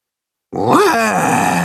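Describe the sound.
A voice imitates the roar of a shaggy monster: a single rough, throaty growl that starts abruptly, swells in pitch, dips, then holds as a sustained gravelly rumble.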